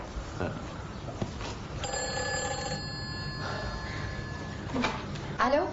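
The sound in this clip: A telephone rings in a dramatized scene, a bright electronic ringing tone held through the middle, with voices talking before and after.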